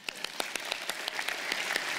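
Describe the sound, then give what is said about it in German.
A small audience gives brief applause for a volunteer called up to the stage: fairly faint, with crisp individual claps in a quick, even rhythm that thickens slightly toward the end. “Einen kleinen Applaus.”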